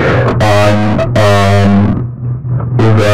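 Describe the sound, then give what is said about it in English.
A voice is run through an effects unit with distortion turned all the way up and intelligibility set to 3, giving loud, buzzy, harmonically smeared speech in a few bursts with brief gaps between them. “I'm surprised that this isn't clipping my audio. So what I did was I turned the distortion up all the way, and I also set the,”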